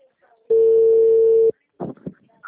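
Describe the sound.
A single steady telephone tone lasting about a second follows a dropped call, loud and even in pitch, and brief bursts of voice follow it.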